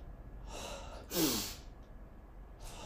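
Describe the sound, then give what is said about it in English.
Breathing: a long, deep breath drawn in through the nose, then a short, louder breath pushed out through the mouth, with another soft breath trailing at the end; quiet and unaccompanied. “like a really deep, longer breath in through the nose, and then just a short little one um, out the mouth”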